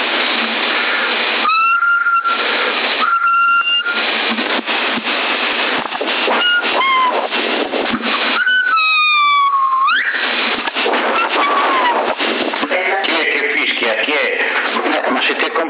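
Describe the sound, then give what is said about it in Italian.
Whistled tones carry over a noisy, narrow-band CB radio channel 10 on 27 MHz, with steady hiss throughout. A few held notes and a gliding, rising tone come through, interleaved with radio voices. “Per fischiare potevi fischiare con un fischietto.”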